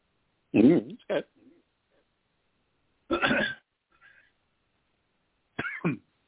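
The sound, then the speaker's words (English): Someone coughs in three separate bouts, each a short cluster of rough, throaty bursts. Quiet pauses fall between the bouts. “I have to cough.”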